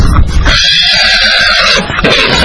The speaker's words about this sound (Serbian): Tako da imam dva konja, došli su iz Ergele, iz Preljine.